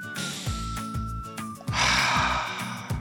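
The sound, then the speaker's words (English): A deep breath drawn over rhythmic background music, a loud, airy inhale of about a second rising out of the music, which plays throughout. “Take a deep breath”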